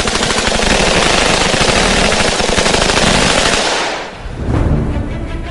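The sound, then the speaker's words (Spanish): Automatic gunfire from SG-550 assault rifles and MP7 submachine guns fired by Swiss Guards. A loud, dense, continuous burst of rapid shots lasts about four seconds, dips briefly, then the firing resumes. “Han entrenado con rifles de asalto SG-550 y ametralladoras MP7 con proyectiles capaces de perforar blindaje. ¡Fuego!”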